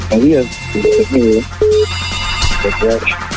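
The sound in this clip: A telephone rings for a caller on a call-in line: several low, warbling ring bursts alternate with short steady beeps over a constant background hum.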